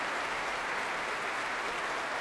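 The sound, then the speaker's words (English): A large concert hall audience gives warm, sustained applause after an orchestral and choral performance: a dense, even wash of clapping at moderate level with no pauses and no distinct voices. “and being warmly applauded by the very, very fulsome audience here at the Royal Albert Hall.”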